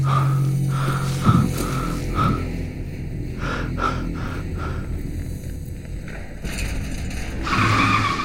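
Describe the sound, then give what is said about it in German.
Car braking with tires skidding: a sustained, harsh screech of rubber on the road runs through the whole stretch, with a sharp burst near the start and steady rough noise after, no voices. “Obwohl keine anderen Autos mehr fahren, bremse ich bei roten Ampeln ab.”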